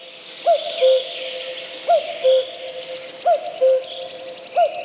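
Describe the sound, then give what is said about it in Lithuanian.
A common cuckoo calls four times, each a clear two-note call with the first note higher and the second lower and steadier, evenly spaced over a faint, continuous high insect chirring. “Štai ji, gegužės gegutė.”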